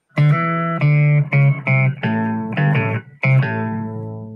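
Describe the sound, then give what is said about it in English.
An electric guitar plays a short melodic phrase of several bright, sustained notes with a slight effect-coloured tone, each note sounding clearly with short gaps between them. No voices are heard. “A guitar can sound like this.”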